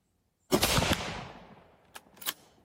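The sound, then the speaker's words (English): A 30-06 rifle fires at a 2-inch steel plate 100 yards away, giving one loud sharp shot with a long fading tail, then two fainter short cracks. “Let's see what happens when that same bullet from the same distance using the same rifle is shot at steel, literal steel.”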